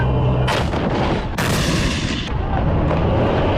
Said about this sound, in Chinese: 抵达阵地，实弹射击即刻展开